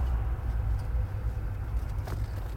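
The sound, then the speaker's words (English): Road traffic in heavy congestion, a steady low rumble of car engines that stays constant throughout, with a faint brief whoosh near the end. “why is there this much traffic? What the shit is going on?”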